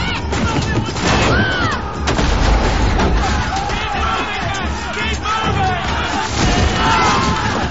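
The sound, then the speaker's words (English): Marines fire guns as the crews of two ships fight each other. Many sharp shots and booms break through a loud, shouting crowd, and battle cries and voices are heard throughout. “The Marines open fire under the spirited command of Howard.”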